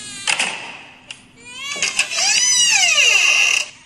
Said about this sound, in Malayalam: ഞാൻ ഈ വഴി വന്നപ്പോൾ കുഞ്ഞിന്റെ കരച്ചില് കേട്ടു.